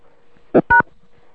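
Two short telephone keypad dialing tones sound in quick succession during a call, clear electronic beeps over a faint steady hum.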